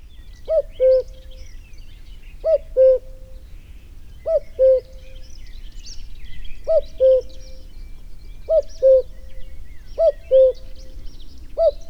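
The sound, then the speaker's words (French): Song of a cuckoo, a migratory bird with grey plumage and a pale belly: a falling two-note call repeated at steady intervals about every two seconds over faint background hiss. “Alors, avez-vous reconnu cet oiseau ? Eh oui, il s'agit du coucou.”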